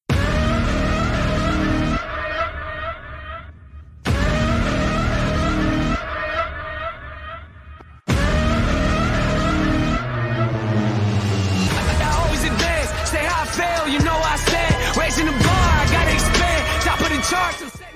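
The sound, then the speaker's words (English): Music from the NBA 2K22 video game trailer plays loud and full, with sharp rhythmic stabs that cut out into brief breaks around the opening seconds before a denser, busier section takes over. “But yeah, this is the trailer, essentially. That is the music to the trailer. 2K22, this says it hits different.”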